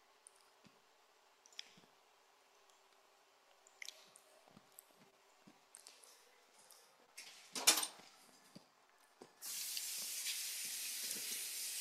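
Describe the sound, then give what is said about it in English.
Spoon stirring a rich mixture of sugar and cocoa gives faint, sparse clicks and soft scrapes, followed near the end by a loud, steady hiss. “So it says to mix well, so that is what I am doing. Oh, I already had a spoon in here.”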